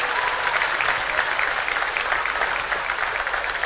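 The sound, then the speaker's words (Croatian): Applause from a large audience at a live music show: dense, steady clapping that stays loud and even for the whole stretch, with no voices standing out. “da čujemo još jednom publiku koja je zaista u velikom broju večeras tu sa nama, pa sami sebe da nagradite”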